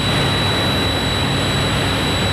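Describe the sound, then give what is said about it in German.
A huge wind turbine about 150 metres tall in Dersum, Lower Saxony, turns its blades, giving off a loud, steady, unbroken roar with a thin high-pitched whine running through it. “Ich gucke 150 Meter hoch, ein riesiges Windrad, die Schaufeln drehen sich und fallen uns hoffentlich nicht auf den Kopf,”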